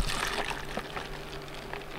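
A liquid gin and tonic gel mixture being poured into a mold gives a faint, steady trickling hiss with a few small clicks and splashes.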